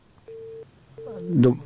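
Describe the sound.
A telephone busy tone sounds after a radio call-in line disconnects: one steady mid-pitched beep, a short gap, then a second beep as a voice starts speaking over it.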